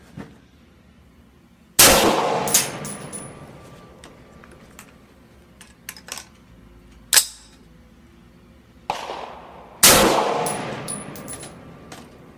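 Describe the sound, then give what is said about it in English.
Gunshots striking a steel target: a few sharp cracks spaced seconds apart, each followed by a ringing metallic decay, with quieter clicks and small knocks between them. “Let's go ahead and pick a new target, put three rounds on it, and we'll save the rest of these for the long range.”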